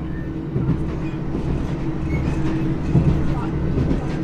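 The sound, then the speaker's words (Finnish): A small local train leaving Boston rumbles along with a constant low rolling drone and faint carriage rattles, loud and even throughout. “Lähden Bostonista pienellä paikallisjunalla ja vaihdan sitten nopeampaan junaan kohti Lontoota.”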